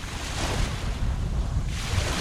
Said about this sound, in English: As 7 boatloads of people arrive on St. James Point, the wind picks up and storm clouds roll in